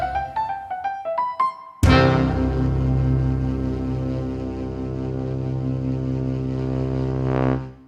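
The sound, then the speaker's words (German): A radio show jingle: a quick run of rising synth notes, then a loud struck chord that rings out and sustains for several seconds before cutting off. “Also, spiel mal den Jingle ab”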